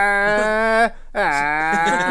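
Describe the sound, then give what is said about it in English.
A horse screaming as it gallops into town: two loud, long, harmonic calls separated by a short gap, the second starting with a slight upward bend. “It's difficult for you to hear over the sound of the horse, which for some reason likes to scream as it gallops.”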